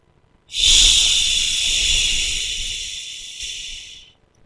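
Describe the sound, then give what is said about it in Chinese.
A slow, voiced hissing exhale shaping a drawn-out "xi" sound, done as a breathing exercise. One steady, moderately loud hiss lasts about three and a half seconds and tapers slightly toward the end before stopping. “呼的时候要发吸的音。 哎，就是缓慢的呼气”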